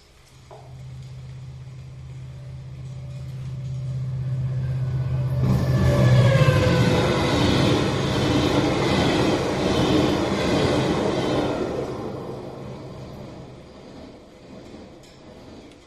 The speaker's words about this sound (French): Mais je peux vous le faire entendre, juste pour entendre le train.